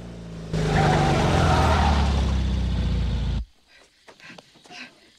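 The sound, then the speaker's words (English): A car on a road roars with a skidding, tire-squealing rush as it stops. The loud, sustained burst lasts about three seconds and cuts off abruptly, leaving quieter, scattered faint noises. “Ben stops further up the road, looks annoyed, then reverses back towards Mr. Owens.”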